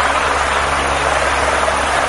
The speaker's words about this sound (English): Authorities in Nepal are mobilizing helicopters and searching for survivors.